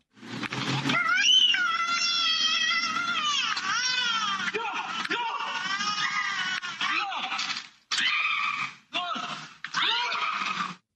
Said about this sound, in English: This is the screaming of a two-year-old.